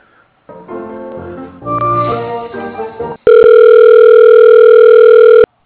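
Telephone line sounds during a call transfer: a short run of melodic electronic tones, then a loud, steady, unbroken tone that holds for about two seconds before cutting off abruptly.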